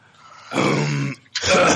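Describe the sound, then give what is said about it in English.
A man clears gravel from his throat in two rough, rasping bursts, the first long and gravelly, the second starting after a short pause and running to the end. “Hold on, I gotta clear this gravel out of my throat.”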